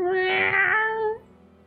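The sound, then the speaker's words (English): A cat perched on someone's shoulder gives a single drawn-out meow, loud and clear with a steady tone, then it trails off into near quiet. “He's on my shoulder. Look at he jumped on my shoulder. Yes, it's a regular stunt cat.”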